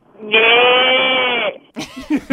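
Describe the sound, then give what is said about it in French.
A voice imitates a calf's bleat with one long, steady, strongly harmonic call that holds for over a second, followed by a short burst of speech. “Le petit veau. Oh, le petit veau, vas-y donc.”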